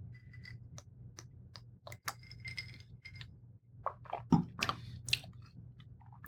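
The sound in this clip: Sipping and tasting peppermint wine from a glass: a few soft, wet mouth and swallowing sounds with small glass clinks over a steady low hum, no talking.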